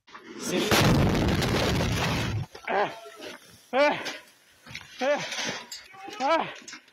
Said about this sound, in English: When the state emergency service and rescuers arrive to save people, the second missile hits, and so the number of victims increases. Here is the moment of that second hit, captured on a paramedic's body camera.